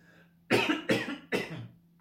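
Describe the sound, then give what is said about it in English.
Three separate coughs from a person with a croaky throat on a cold, snowy morning. Each is a short, fairly quiet burst heard alone. “I've got a bit of a frog in my throat there today”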